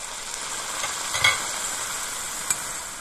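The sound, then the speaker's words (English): Cream poured into a hot pan crackles and sizzles in a steady hiss, with a couple of brief louder spits or clinks along the way. “Now we'll hit it with the cream.”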